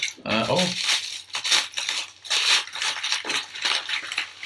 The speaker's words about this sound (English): Right, so this is tin foil, if you can't already hear that.